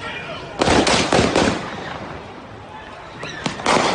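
Gunshots in recorded video footage: four sharp shots in quick succession, a pause, then two more loud cracks over a steady noisy background.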